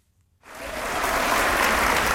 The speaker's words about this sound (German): Viel Applaus für die über 50 Musikerinnen und Musiker vom Orchester der Musikschule Limburg.